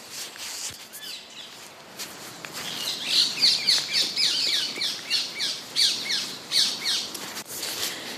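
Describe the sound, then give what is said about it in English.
Parakeets squawk among robins, blackbirds, wrens and sparrows in a small park in autumn. Many harsh, high squawks come in repeated bursts through the latter half, over softer chirps. “parakeets as well as the robins and the blackbirds and the wrens and the sparrows.”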